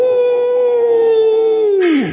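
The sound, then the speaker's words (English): A man playing a vampire imitates a howl with his voice: one loud, sustained tone held at a steady pitch that drops off sharply at the end. “Well, maybe vampires don't howl, they bite.”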